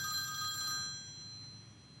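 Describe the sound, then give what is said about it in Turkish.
A work mobile phone rings with a bright, tonal electronic ring that plays for about a second, then cuts off, leaving a faint background hush; quiet overall, with no voices. “telefon çalıyor galiba.”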